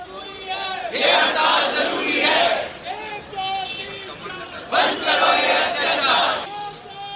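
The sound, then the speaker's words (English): Protesters chant at the junior doctors' strike in Kolkata over the rape and murder of a trainee doctor at R.G. Kar Medical College. Two loud bursts of crowd chanting come with a single voice calling in the gaps between them. “Sound of some of the protests.”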